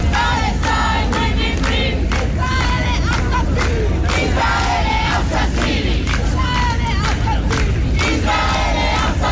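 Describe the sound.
Protesters chanting at a demonstration: a large crowd shouting loudly and continuously in rhythmic bursts, with no single voice standing out.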